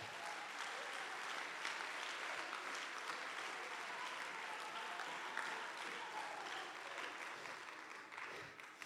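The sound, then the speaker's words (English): A church audience claps their hands in dense, continuous applause that holds steady for about eight seconds before easing slightly at the end. “Clap your hands unto the Lord.”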